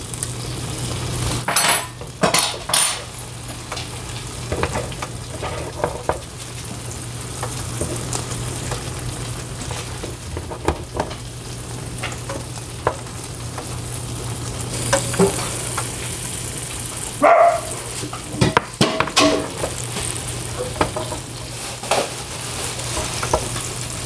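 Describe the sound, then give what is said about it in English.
Food sizzling on an electric grill with its lid opened: steady crackling and hissing throughout, broken by scattered sharp clicks and light clatter. “Opening the grill right now. And I'm going to look at it.”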